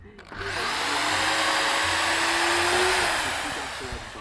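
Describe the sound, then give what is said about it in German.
Steady whirring motor noise from screws being removed while a wine stand is dismantled. It runs loud and unbroken for about four seconds, with a faint steady tone under a broad hiss. “man hört, sie sind hier wirklich am Schrauben rausnehmen.”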